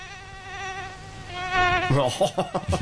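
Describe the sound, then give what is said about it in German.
A mosquito's thin, harmonic whine hums steadily for about two seconds with a slight wavering pitch, then a voice breaks in over it. “bei vielen wahrscheinlich verhasstes Geräusch des Sommers. Weltweit gibt es schätzungsweise um die 3700 Arten von Stechmücken.”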